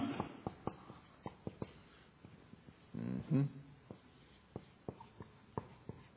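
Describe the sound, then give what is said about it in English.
Writing on a board comes through as faint, scattered taps and scratchy strokes in an irregular rhythm. “And I'm going to write some things up here on the board.”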